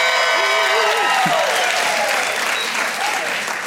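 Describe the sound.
An audience at a Pentecostal church service cheers and applauds in a dense, steady roar of clapping and shouting, with a voice heard over the noise.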